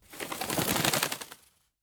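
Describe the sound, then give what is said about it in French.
A dove flapping its wings as it flies off after being released from a window, heard as a soft, rapid fluttering burst that lasts about a second and a half before fading out, faint and alone. “Au petit matin, par la fenêtre, Noé lâche une colombe. Vole, ma colombe!”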